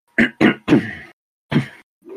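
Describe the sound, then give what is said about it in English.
Throat clearing from a man with something caught in his throat: a few short, rough, gravelly bursts in quick succession, then a pause and another harsh rasp, heard alone without talk. “Sorry, got some crap in my throat.”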